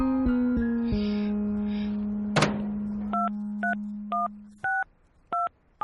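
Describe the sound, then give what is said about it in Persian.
Telephone keypad tones as a number is dialed: a click, then a series of short, evenly spaced electronic beeps, clear and alone. “به کی داری زنگ میزنی؟”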